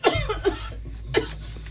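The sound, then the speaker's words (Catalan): A woman gives a dry, persistent cough in three short, harsh bursts, the last one after a brief pause, over a faint steady low hum. “Una tos seca, persistent, que sembla tallar el silenci de la postguerra.”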